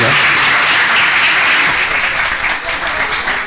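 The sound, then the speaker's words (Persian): Loud, sustained audience applause at a festive Persian gathering. Many hands clap in a dense, continuous roar that eases slightly toward the end. “به افتخار خودتون و به افتخار عزیزانی که زحمت کشیدن این بزم رو برپا کنید، دست زیبا بزنید.”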